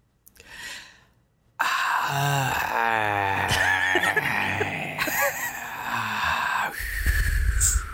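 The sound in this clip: A man imitates a magical breath that puts a princess to sleep: a soft breathy exhale, a brief pause, then a louder, sustained, wavering vocal sigh that runs to the end.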